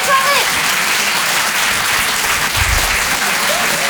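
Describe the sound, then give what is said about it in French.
A comedy club audience in Paris applauds loudly, many hands clapping in a dense, steady clatter that holds at an even level throughout, with a faint voice briefly audible near the start. “vous pouvez vous applaudir très très fort”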